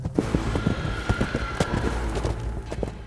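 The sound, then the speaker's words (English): A horse gallops, its hooves thudding in a quick, steady rhythm of many soft beats over a low background rumble. “The Púca sprang into action. It galloped toward the fleeing Brian at full speed, catching up to him easily.”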